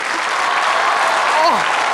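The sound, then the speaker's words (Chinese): A crowd applauds as a stunt is announced in which someone swallows a light bulb. Dense, steady clapping lasts about two seconds, and a brief voice rises and falls near the end. “来掌声和尖叫”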